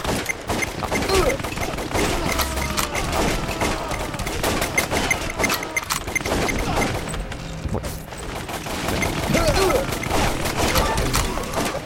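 An MG4 machine gun fires in a video game, with rapid, sustained bursts of automatic gunfire that run almost continuously, broken only by brief pauses, alongside mechanical clatter.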